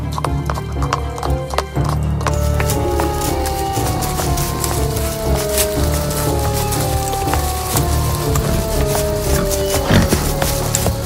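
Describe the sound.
Horses' hooves clip-clop steadily as riders travel on horseback, a loud, continuous run of many quick hoof strikes that carries on without a break through the whole stretch.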